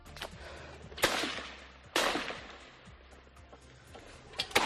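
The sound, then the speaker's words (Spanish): Gunfire as Hamas militants storm a house in an Israeli kibbutz during the 7 October attack: a few sharp, irregular cracks with ringing decays, two standing out loudly, over a low rumbling background. “Este es el momento en el que los terroristas de Hamas entran en una casa del kibutz a tiro limpio.”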